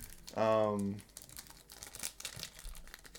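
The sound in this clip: Crinkling and tearing of a foil pack of hockey trading cards: a loud, dense crackle burst lasting under a second near the start, then light intermittent rustling.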